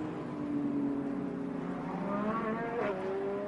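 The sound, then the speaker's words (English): A Lamborghini race car accelerates down a steep descent on a racing circuit. Its loud, steady engine note carries strong, sustained harmonic tones throughout. “that Lamborghini as it accelerates down from the top of the roller coaster”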